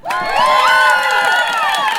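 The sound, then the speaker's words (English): Loud crowd cheering and whooping at a Wellington Pride Festival event as a speaker is welcomed to the stage. High excited shouts and whoops merge into a sustained roar that holds steady for the whole two seconds. “I want you to give them a gay old cheer to welcome them to the stage. Can you do that for me?”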